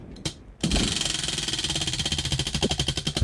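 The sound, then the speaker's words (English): Prize wheel being spun: a brief rustle, then a loud, rapid and continuous rattle of clicks from the spinning wheel. “We're gonna spin this wheel here.”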